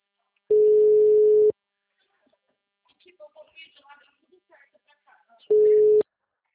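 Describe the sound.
After a dropped phone call, a telephone busy signal sounds: two loud, steady, single-pitch tones about four seconds apart, with faint murmuring voice in the quiet gap between them.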